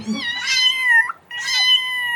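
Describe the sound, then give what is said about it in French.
A two-year-old cat stuck high in a tree gives two high-pitched, frightened meows separated by a brief gap, each long and drawn out. “Bah oui, un petit miaulement de peur.”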